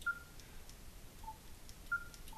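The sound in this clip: Four short electronic beeps from a button press on a radio receiver's attenuator control, alternating between a higher and a slightly lower pitch. They sound faint and clean over a quiet hiss.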